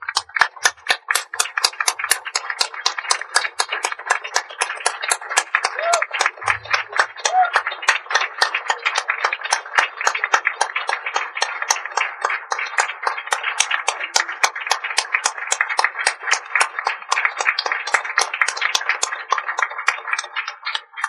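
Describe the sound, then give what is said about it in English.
Standing ovation from an audience, sustained clapping that falls into a steady, even rhythm and keeps going at a constant, fairly loud level for a long stretch. “Would you please stand to give them an ovation of welcome?”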